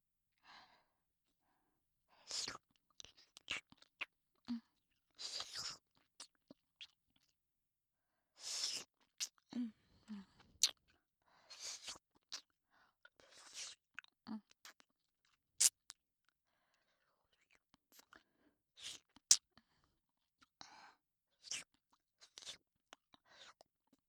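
Grape-flavoured hard candy being eaten, with scattered faint crunches, clicks and soft mouth sounds coming in irregular, sparse bursts, mixed with quiet breaths and sighs and long silent gaps.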